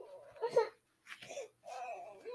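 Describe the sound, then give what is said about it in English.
A fussy young girl, getting ready for a nap, babbles and whines in three short bursts separated by brief pauses. “Okay, I think someone's time for a nap. Yeah, I think she's getting ready for a nap too. She's starting to get a little fussy.”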